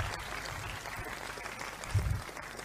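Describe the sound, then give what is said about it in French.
A church audience applauds during a house-church service. The clapping is a steady, dense patter that holds the whole way through and is fairly faint, with a brief low thump near the end. “Est-ce qu'on peut acclamer pour Jésus?”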